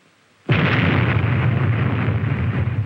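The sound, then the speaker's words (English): An atomic bomb test explosion in the Nevada desert: after brief near-silence, a sudden loud blast breaks into a heavy, sustained rumbling roar that stays strong to the end. “there's one more draw that only Las Vegas can offer. Atomic bombs.”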